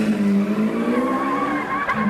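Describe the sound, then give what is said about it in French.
Tyres squeal as a car starts off fast, a loud, sustained tonal screech over engine roar that holds steady with a slight upward drift in pitch. “« Démarre et fonce !» ordonna-t-il à Walid.”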